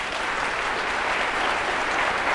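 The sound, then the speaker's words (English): Audience applause after a talk: dense, steady clapping from many hands that holds at an even level throughout without a break. “Yeah, you can applaud.”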